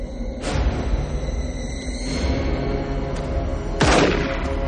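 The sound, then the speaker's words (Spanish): A gunshot to the head in a 1995 crime thriller scene: two sharp, booming bursts, the second stronger, rise out of a steady low rumble. “Le pega un tiro en la cabeza.”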